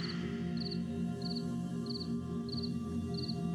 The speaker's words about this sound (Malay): Suara jangkrik layaknya nyanyian malam menemani Anda yang jauh dari kebisingan ibu kota.